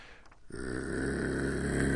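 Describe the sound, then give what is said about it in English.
A man imitates a dog's growl with his voice. After a brief quiet start, a low, rough, buzzing rumble begins abruptly and holds steady and loud to the end. “I am known as the demon dog of American literature, so I should give you the demon dog growl.”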